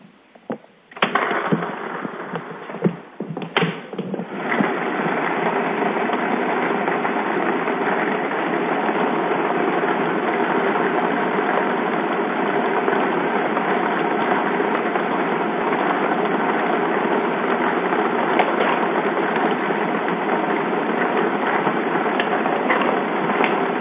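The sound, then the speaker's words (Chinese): A lottery drawing machine for a China Welfare Lottery 3D draw starts with a few sharp clicks, then settles into a loud, steady rushing whir that continues unbroken to the end. “好的，马上为你启动摇奖机。”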